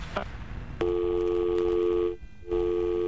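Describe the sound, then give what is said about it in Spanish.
Steady electronic phone tone after a dropped call. It starts abruptly after a faint click and holds a level, buzzing pitch. It breaks off briefly, then resumes at the same pitch, with no voices. “No manches, se le cortó, carnal. Se cortó la llamada”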